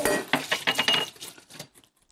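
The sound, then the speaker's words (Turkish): Batter for börek is whisked with milk in a bowl: a quick run of rhythmic clinking, scraping strokes that thin out and fade to a few faint taps. “sütümüzü ekliyoruz ve sütle birlikte şöyle güzelce çırpma işlemine devam ediyoruz.”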